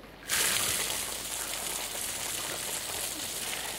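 Water bursts through a pipe fed by a hilltop reservoir as a tap is turned open. After a brief quiet start, it begins abruptly as a loud, steady hissing gush and carries on unbroken.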